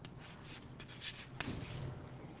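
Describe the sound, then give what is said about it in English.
Faint scratchy strokes of a shear profile being drawn on a board, a few short rubbing marks in uneven rhythm with quiet gaps between them and no talking. “And let me draw a shear profile.”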